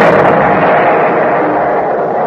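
A loud artillery gun firing during a fire mission: a sharp onset swells into a broad, sustained rumbling roar that slowly tails off over about two seconds.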